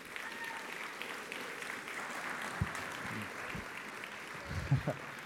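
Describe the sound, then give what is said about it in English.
A church audience applauds steadily as a pastor comes up, a soft, even wash of clapping with a few low thumps near the end. “So let's welcome up Stephen.”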